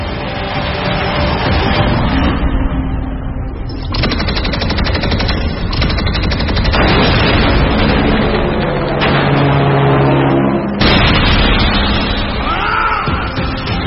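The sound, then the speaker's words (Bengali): Guards fire their guns at a speeding car, loud bursts of rapid gunfire crackling one after another across the whole stretch, with brief gaps between volleys and no voices. “গার্ডরা সুখারামকে লক্ষ্য করে বেশ কয়েকবার fire করল বটে, কিন্তু তাতে কাজ হল না।”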